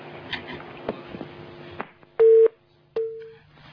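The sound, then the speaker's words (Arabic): Busy tone on a phone line after a call was cut off: two steady, mid-pitched beeps follow a stretch of faint, muffled line noise, the first beep short and the second longer, running into the end. “طيب الاتصال انقطع”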